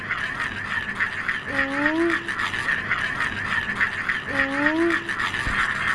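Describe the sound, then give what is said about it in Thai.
Jakkachan, a traditional Thai whirling toy, spinning with a continuous rasping buzz that pulses rapidly at a steady level, while a brief voice sounds twice over it. “เขาตั้งชื่อจักรจันทร์เพราะเสียงมันเหมือนจักรจันทร์เหรอครับ”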